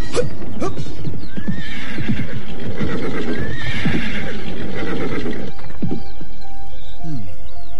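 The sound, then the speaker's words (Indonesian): Horse neighing with hooves clip-clopping, from horses ridden through the night, with several shrill, wavering whinnies in the middle and a steady, fairly loud hoof rhythm that ends in a few scattered steps. “Kita telah berkuda semalam-malaman.”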